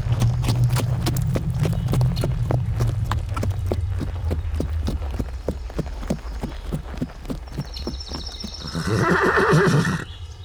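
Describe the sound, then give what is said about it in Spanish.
Horse hooves clip-clop in a steady, even rhythm as a rider sets off, many beats over several seconds, then a loud, high whinny near the end, with no talk. “El viejo subió a su caballo, tomó firmemente las riendas rumbo a la casa de la famosa médica.”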